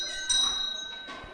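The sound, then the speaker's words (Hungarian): A school bell rings to call children in for class: a steady, high electric ringing that holds for about a second and a half with no talk over it. “Megtörténik a becsengetés.”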